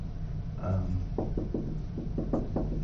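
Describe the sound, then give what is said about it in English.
Writing on a board comes through as a series of short, soft taps and strokes in an uneven rhythm, fairly faint over a low background hum. “Let me get the first principle on the board.”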